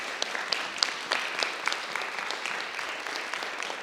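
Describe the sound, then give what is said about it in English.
Applause from a church audience at a Wednesday night campmeeting service welcomes a visiting pastor, a dense, steady wash of many hands clapping, moderately loud and continuous with no talking. “Give him a hand. Yeah, give him a hand.”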